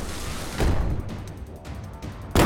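Gunfire in a video game: two loud, sharp blasts, one shortly after the start and another at the very end, with a busy, noisy game background between them.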